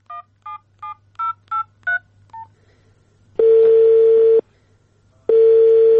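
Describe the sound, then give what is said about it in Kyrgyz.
A telephone number is dialed on a phone taken from a street advertisement, with seven crisp touch-tone beeps in a quick, even rhythm followed by two long, loud, steady ringback tones separated by a pause. “Биз андагы телефон номурлардын бирине байланышып көрдүк.”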